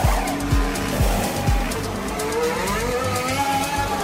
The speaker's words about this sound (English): What you have just heard was the fastest ever pit stop in Formula One history.